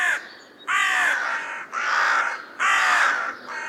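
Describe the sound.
Harsh, raspy cawing of a crow, a series of loud, drawn-out calls separated by short pauses.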